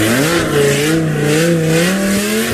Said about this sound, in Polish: To takim drugim problemem, który się pojawia latem, to są te częste przejażdżki zarówno tuningowanych samochodów, jak i motocyklistów z modyfikowanymi wydechami.